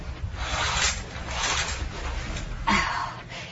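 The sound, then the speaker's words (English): Curtains being drawn back in a bedroom, a soft, breathy swishing and rubbing of fabric that runs in waves and ends with a firmer sliding scrape. “Just wait there a minute, Mum, and I'll draw these curtains back.”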